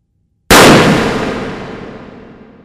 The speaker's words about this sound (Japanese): 実弾だと思ったか。このロシアンルーレットはハウスの幹部内で意見が割れた時の解決策でね。だからダミー以外も空砲を使う。